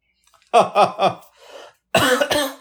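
Harsh throat clearing from a person with something caught in the throat: a quick run of three cough-like rasps, a brief softer breathy pause, then two more sharp rasps, loud and with no speech.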